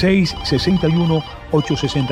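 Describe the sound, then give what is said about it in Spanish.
A telephone ringtone announces an incoming call to a phone-in line, playing a melodic electronic pattern of pitched tones in two loud bursts separated by a short pause. “Precisamente, una nueva llamada. Voy a agarrar esta llamada rápidamente.”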